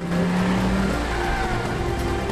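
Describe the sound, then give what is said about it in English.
A car reverses at phenomenal speed out of a tricky parking place and back up a street, making a loud, steady roar of engine and tyre noise with a faint tonal whine throughout and no voices. “switches on a rear-view camera and uses this to negotiate a tricky reverse out of his parking place and back up the street at phenomenal speed.”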